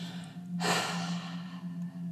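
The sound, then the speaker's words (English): A single forceful exhale with the tongue stuck out during a yoga breathing exercise, a sudden breathy rush of air that tapers off over about a second above a steady low hum. “Bring your hands to your legs and just stick out your tongue as you breathe. Breathe the breath out.”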